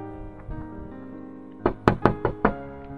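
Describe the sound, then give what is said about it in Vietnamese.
Several sharp, loud knocks rap on a glass door in a quick, uneven burst, each with a bright, clicky edge, standing out above a low, steady background. “Một tràng tiếng gõ cửa đánh thức Kiều Khả đang say ngủ. Cô mở mắt ra nhìn, thì ra là Hình Gia đang gõ vào cửa kính.”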